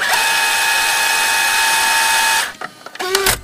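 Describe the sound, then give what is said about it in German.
Cassette tape rewinding in a cassette player: a steady, high motor whir holds for over two seconds, then cuts off into a few sharp mechanical clicks and a brief tonal squeak. “Kassette rein, spulen, Start drücken und...”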